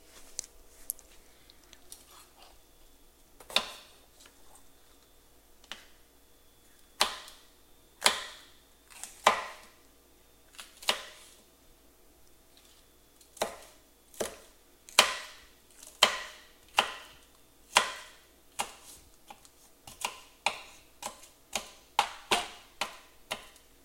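A knife dices food with many crisp, sharp chops, irregular and spaced at first, then quicker and denser toward the end. The chops are fairly quiet and there is no talking.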